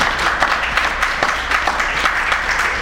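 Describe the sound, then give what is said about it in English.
An audience claps in a dense ripple of applause, many overlapping hand claps at an even, fairly loud level for a few seconds, with a low hum underneath. “Yeah, we should clap for the Haitian Revolution”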